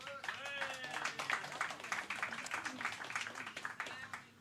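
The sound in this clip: Audience applause at a live show, a dense patter of many hands clapping steadily for several seconds, with a brief voice at the start.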